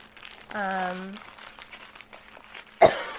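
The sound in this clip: A single sharp cough from a tickle in the throat bursts out near the end. Before it comes a brief low hummed tone and faint rustling, all fairly quiet apart from the cough.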